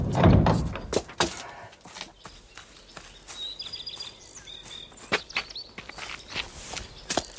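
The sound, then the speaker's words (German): A door is slid open with a heavy, loud rumbling burst at the start. Footsteps and a few thuds follow, with faint bird calls in the background. “Ich schieb die Tür auf.”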